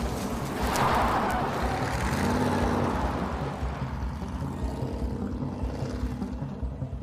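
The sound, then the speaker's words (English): A battered car drives off down a road at high speed, making a steady, rumbling engine and road roar. The noise stays loud and continuous throughout and eases off only slightly toward the end. “climbs into the bearded man's battered car and drives off down the road at high speed”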